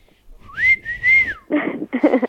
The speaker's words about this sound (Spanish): Muy bien, silbando, silbando.